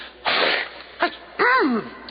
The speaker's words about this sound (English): He sneezed.